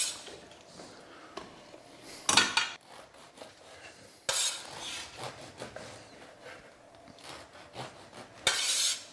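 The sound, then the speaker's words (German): A knife saws through bread in a kitchen during soup preparation: a few harsh, rasping strokes stand out among softer clinks and scrapes of cutlery and dishes. “kümmere mich um die Suppe. Und schneide natürlich auch noch das Brot.”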